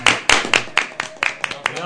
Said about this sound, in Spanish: Bueno, un aplauso.